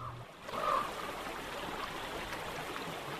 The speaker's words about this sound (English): Water rushing downhill over rocks.